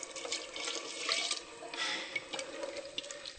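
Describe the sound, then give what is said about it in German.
Vegetable broth pours into a pot of cabbage as a steady, faint stream of splashing liquid that runs without a break from start to finish. “Jetzt tun wir die Gemüsebrühe”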